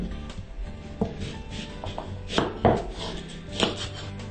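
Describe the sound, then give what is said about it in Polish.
Chopping of aromatic parsley being cut into cubes, a few sharp, irregularly spaced strikes standing out over a quiet kitchen background. “Nasza bardzo aromatyczna pietruszka. Również kroimy ją w kostkę.”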